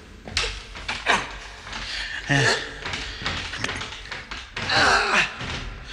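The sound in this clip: A box being opened inside a shipping container, heard as a few sharp bangs, thuds and scrapes at irregular intervals, with voices talking among them.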